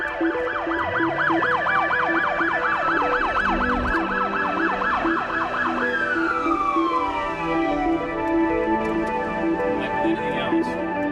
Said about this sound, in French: Comme un bruit qui court au son de la sirène de la police.